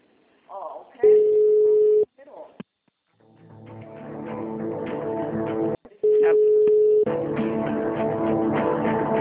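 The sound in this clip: Telephone ringback tone after dialing a call, two steady low one-second beeps about five seconds apart, with a voice sounding loudly between and over the tones.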